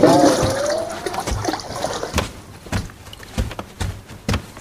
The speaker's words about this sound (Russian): Набрав в тазик воду, наливает воду в ванну.